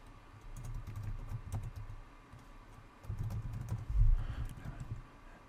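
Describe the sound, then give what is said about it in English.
Fingers tap on a computer keyboard while an email is composed: many quick, light key clicks in irregular bursts, growing denser and heavier toward the end, with no voices. “Just type subject test and hit send.”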